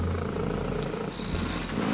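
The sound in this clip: A record-breaking loud purr from a cat in the UK, a continuous low, rough rumble with a steady texture that barely changes over the whole stretch.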